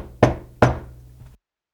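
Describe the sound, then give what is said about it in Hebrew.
Knocking on a wooden door: two firm, hollow knocks about half a second apart, then a faint third tap before silence. “הקיש המלך על הדלת.”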